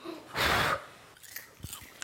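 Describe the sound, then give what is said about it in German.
Homemade popcorn, freshly popped from blue-purple corn and still hot from the pot, is eaten. One loud crunchy bite is followed by softer, scattered chewing clicks, without speech. “Wir haben einen ganzen Topf voll mit selbstgemachtem Popcorn. Probieren wir?”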